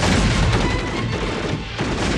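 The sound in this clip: Gunfire volley after a command to fire in a battle: a dense, sustained roar of overlapping shots and blasts with no clear gaps between them, loud throughout.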